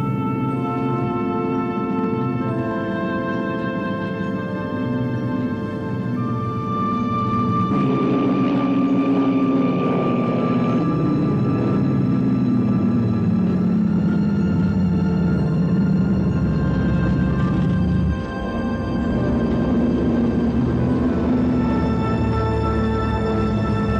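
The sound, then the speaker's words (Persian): An airplane landing with its flaps lowered, heard as a loud, continuous engine drone with steady tonal hums layered over a broad rumble. The sound holds constant throughout, with no voices. “فلاپس پایین. میشینیم.”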